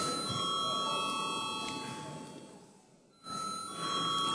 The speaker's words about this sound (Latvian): lūdzu zvanu